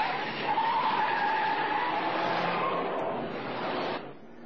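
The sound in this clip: A car skids as it turns sharply at a narrow crossroad, giving one sustained tire screech with a high squealing edge. It holds for about four seconds, then cuts off abruptly, with no voices.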